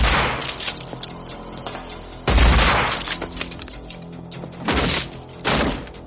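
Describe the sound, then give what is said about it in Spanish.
Heavy shotgun blasts shoot the hinges off a door during a police raid in a thriller film scene. Several loud, booming bursts are spaced apart, with a rumbling tail after each. “Se detienen ante una puerta. Casals dispara las bisagras.”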